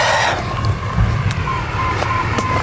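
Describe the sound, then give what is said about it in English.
A digger drives past at Fawley power station with a low, steady engine rumble and a few faint clicks over the top. “Oh, there's a digger going past us in the Fawley power station. It's like a Tonka truck.”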